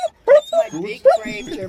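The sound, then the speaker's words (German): A frightened dog whimpers at the vet, giving high, wavering whines and short yips in a few bursts over the course of the moment, with people talking alongside it. “der arme Hund, ich entschuldige mich, die Besitzer finden es offensichtlich sehr lustig, dass der Hund da jetzt Angst leidet”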